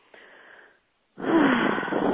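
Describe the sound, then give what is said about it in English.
A deep breath during a guided eyes-closed exercise: a soft, airy breath, a short silence, then a louder, longer rushing breath with a faint wheezy edge. No talking. “Just go ahead and close your eyes. Take a deep breath.”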